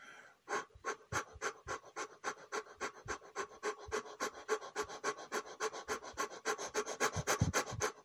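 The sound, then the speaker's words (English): Rapid panting breaths from a guided breathing exercise: many quick, even puffs of air in a fast, steady rhythm with a slightly scratchy, breathy texture, running for several seconds with no talking. “Just for a few moments, we're going to launch back into those quick breaths.”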